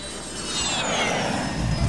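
Airplane sound effect: a broad, rushing jet roar that swells slightly, with thin high whining tones gliding gently downward across it.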